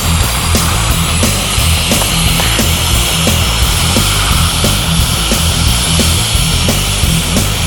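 An airplane taking off: a dense, loud, steady engine roar that fills the whole clip without a break, with faint regular pulsing running through it and no voices.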